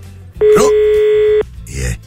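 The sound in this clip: A telephone dial tone sounds on an outgoing call placed for a phone game. It is a loud, steady, even tone lasting about one second, with brief noisy bursts just before and after it.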